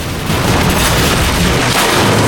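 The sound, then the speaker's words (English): A truck fitted with a battering ram smashes through a wall into a security depot. A loud boom and a dense, roaring crash of debris start just after the opening and continue to the end. “then drives forward into the wall, this time crashing through it into a security depot.”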